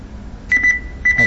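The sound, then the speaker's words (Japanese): Electronic beeping played back from a computer: four short, identical mid-pitched beeps in two quick pairs, heard over a low steady hum. “このピピピピという音も入っているようですね。”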